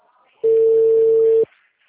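A telephone line tone plays while a call is being placed. It is a single steady, mid-pitched tone lasting about a second, clear and loud against faint background noise.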